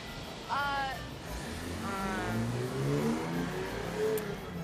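A car engine revs, its low drone climbing in pitch during the second half. A couple of harsh, cawing calls sound above it earlier on.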